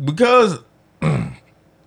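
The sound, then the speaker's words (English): Someone clears their throat in two short, rough bursts separated by a brief pause. The sounds are fairly loud against an otherwise quiet background. “Need that clear throat.”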